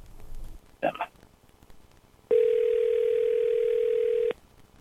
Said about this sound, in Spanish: Mamá, te estoy llamando.